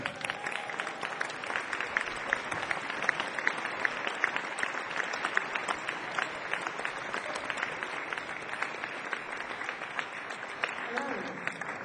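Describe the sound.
Audience applause welcoming a guest on stage: dense, steady clapping runs throughout, with some crowd noise mixed in.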